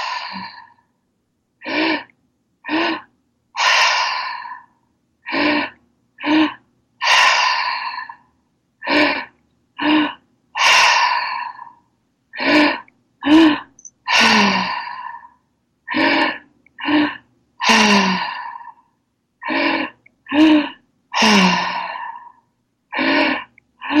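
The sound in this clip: Deep rhythmic breathing exercise drawn into the belly and heart: many sharp gasping inhales, each followed by a long sighing exhale, repeated in a steady pattern with brief pauses and no talk.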